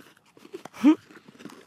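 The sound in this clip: Someone chews crunchy freeze-dried banana smoothie bites. A few soft, crisp crunches and bites come at uneven intervals, quiet and sparse.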